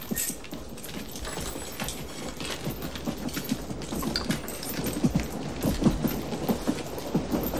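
A train rolls along rails on a journey north toward the coast near Benghazi, giving a continuous rattling rumble dotted with many rhythmic clacks that grow a little louder toward the end.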